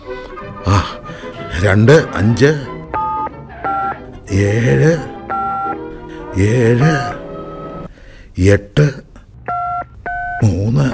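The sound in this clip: Keypad tones from a telephone number being dialed: several short, steady two-note beeps in separate groups, with a person talking between them.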